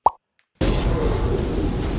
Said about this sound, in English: Before Softy can say anything, the TARDIS explodes.